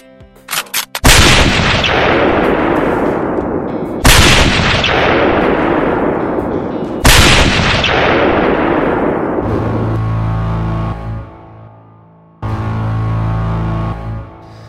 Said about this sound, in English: That guy on the grassy knoll's got a gun. He's gonna shoot the president.